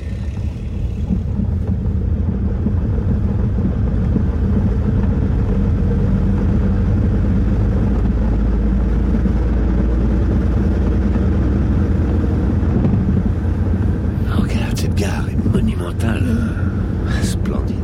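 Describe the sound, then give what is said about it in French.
A Ford car is driving, heard as a steady, loud low-pitched engine and road rumble that continues without a break through the whole stretch. “Puis le couple monte à bord d'une Ford en direction de l'hôtel.”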